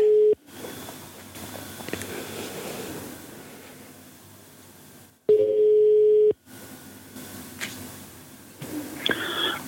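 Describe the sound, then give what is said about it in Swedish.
A phone call is placed and rings out: a steady single-pitched telephone tone sounds briefly at the start, then comes back as one loud, sustained tone of about a second. A low, rumbling line noise fills the gaps between. “Så jag tänkte jag ska ringa upp honom här så ska vi ta ett litet snack.”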